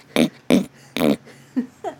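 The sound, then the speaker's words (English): Pig snorting in an obscene telephone call: five short, guttural grunting snorts. The first three are strong and evenly spaced, and the last two are fainter and quicker. “There's a pig snorting at some point.”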